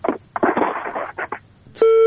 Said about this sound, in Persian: بالاخره تماس قطع شد.